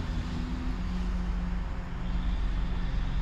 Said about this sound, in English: Just drinking my coffee, riding through these Cleveland streets, looking at shit, looking at people, driving on their way to work.